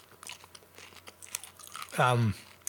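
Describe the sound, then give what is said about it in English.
One loud, sharp crunch as someone bites into a plain PC brand stone-ground nacho chip. Quieter mouth and chewing sounds come before it. “I'm going to eat it just a plain nacho. Delicious.”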